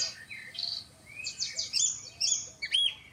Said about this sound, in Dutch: Hé, hey, schoolekster. Ja, de schoolekster weer.